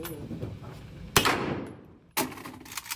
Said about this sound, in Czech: Jsme tady na střelnici, jak jsem viděla, je tu spousta dalších návštěvníků.